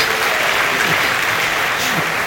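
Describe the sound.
Warm audience applause at a late-night live show: a continuous, dense wash of clapping at a steady, fairly loud level, with voices faintly audible underneath.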